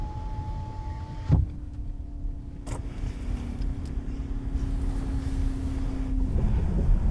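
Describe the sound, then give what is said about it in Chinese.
Power window motor of a Hongqi car closing the front passenger window: a steady, even electric whine lasting about five seconds, starting with a soft thump and stopping abruptly, over a constant low cabin rumble. “副驾驶车窗关一下。”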